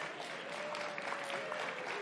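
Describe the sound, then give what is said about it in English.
An audience applauds during a sermon with steady, even clapping that holds at a moderate level for the whole span. “I have no idea why you're applauding that, but okay.”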